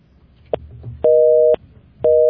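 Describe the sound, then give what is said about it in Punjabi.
Busy tone after a dropped phone call: a faint click, then evenly spaced, steady-pitched electronic beeps separated by short silences, with low background hum. “ਨਹੀਂ ਜੀ, ਕਾਲ drop ਹੋ ਗਈ।”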